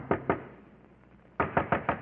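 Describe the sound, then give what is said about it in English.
Knuckles rap on an innkeeper's door at a port inn at night: two quick knocks, a pause, then a firmer run of five evenly spaced knocks, crisp and hollow, with nothing else heard. “And before the night was over, the Count had come into the town and knocked on the door of an innkeeper of the port.”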